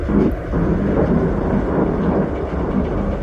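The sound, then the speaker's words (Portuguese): Rain falls, with water dripping indoors through leaks in the roof, heard as a steady, dense, rumbling wash of noise that holds at an even level throughout, without distinct single drips standing out. “que barulho é esse? Tá chovendo aí dentro? É, tem umas goteiras aí.”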